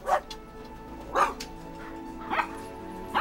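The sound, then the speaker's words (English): Caged dogs barking with excitement: a few sharp barks spaced about a second apart, over a steady background tone, with no talking. “The other dogs jump with excitement as it swings open. The thieves exchange a worried glance. Why are they barking?”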